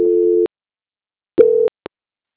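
Telephone line tones during a call transfer: a steady low tone, a silence of about a second, then a shorter tone of the same pitch and a brief final blip, with no talk.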